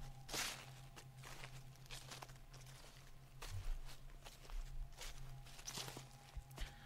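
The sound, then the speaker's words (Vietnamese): Footsteps crunching on dry leaves in a banana garden: a long series of irregular, crisp rustling steps at a moderate, uneven pace, fairly faint and with no voices. “Đúng lúc ở ngoài vườn chuối lại có tiếng chân người dẫm lên lá khô sần soạt.”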